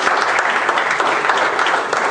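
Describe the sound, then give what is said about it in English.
Audience applause fills the whole clip: dense, steady clapping at an even loudness for about two seconds, with no voice over it. “Get a little hand of applause.”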